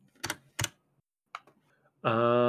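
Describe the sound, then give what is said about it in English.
A few sparse keystrokes on a computer keyboard with a changed key layout, slow and hesitant, three soft clicks spread over two seconds before a steady buzzing tone cuts in. “I really need to practice with this keyboard some more.”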